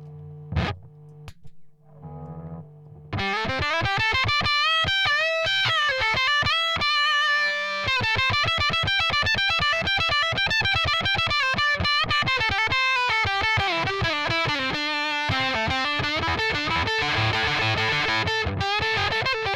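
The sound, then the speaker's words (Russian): Electric guitar played through an octave effect pedal on the neck humbucker with coil split. A few sparse notes lead into a long, dense stretch of distorted notes and chords, loud and sustained, with no voices. “И сыграю со включенной октавой, но на нековом хамбакере с отсечкой.”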